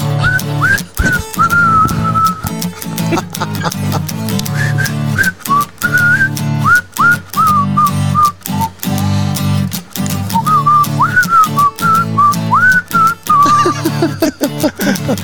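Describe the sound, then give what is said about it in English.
A whistled melody carries a song, the bright wavering tune sitting over a steady full-band backing with a regular beat, the whistle phrases coming and going throughout. “There's probably a whistling part here, I think.”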